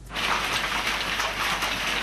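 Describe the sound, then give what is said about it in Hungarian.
Hail pours down during a Wednesday afternoon summer storm, filmed from a house terrace in a village in Romania's Székely Land. It makes a dense, steady, hissing roar of pelting ice with no distinct individual impacts. “Ekkora robaja zuhogott a jég szerdán délután Csíkszendom okoson”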